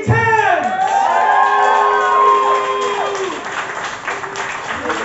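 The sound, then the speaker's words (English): Applause and cheering for a poet at a poetry slam after his scores are read: loud whoops and shouts with sliding pitch ride over steady clapping, then the cheering thins and the applause fades toward the end. “Give him a round of applause. Keep the applause going.”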